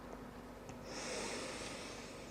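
A long, soft exhale of breath during a guided meditation and affirmation exercise: a faint, steady breathy hiss that starts about a third of the way in and holds to the end.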